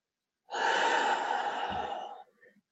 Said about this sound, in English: I'll take a deep inhalation of this real quick.